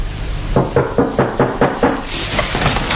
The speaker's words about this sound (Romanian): Nu mai bate așa că spargi ușa.